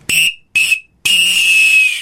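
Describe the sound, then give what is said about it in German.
A referee blows three shrill whistle blasts to signal the final whistle of a match. Two short blasts come first, then a longer sustained one, all loud and piercing with no talk around them. “Abpfiffen tue ich anders, oder? Also da tue ich drei Pfiffe machen.”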